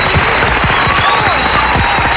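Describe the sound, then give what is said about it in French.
Enthusiastic applause for a guest: thick, continuous clapping from a group that holds at a fairly loud, even level throughout. “Donc là je vais dire, on va t'applaudir, bravo. D'ailleurs on va y mettre plus le paquet.”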